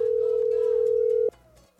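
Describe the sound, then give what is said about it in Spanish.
A telephone dial tone sounds while a call is being dialed. It is a steady, mid-pitched hum held for just over a second, then stops abruptly and leaves only a low background. “Vamos a marcar por aquí, por aquí, por aquí, por aquí, por aquí.”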